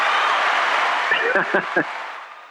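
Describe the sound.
Audience applause for a guest, a steady wash of clapping that tapers toward the end while a voice speaks over it.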